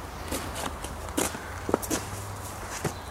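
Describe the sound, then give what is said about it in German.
Footsteps of a person walking a route with a sandbag in hand, carrying it to a dike built from leaf piles; a few soft, irregular steps, faint and with no talk. “Und ich werde jetzt diese Strecke mit dem Sandsack in der Hand laufen und den Sandsack auf den Damm legen, auf den Laubhaufen, wieder runternehmen, wieder rüber zum anderen Ende der Strecke”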